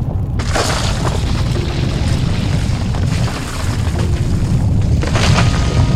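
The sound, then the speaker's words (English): An earthquake shakes a room with a loud, continuous deep rumbling boom and crackling, rattling bursts layered over it, sustained for several seconds. “Suddenly the room around us began to shake in the grip of another earthquake.”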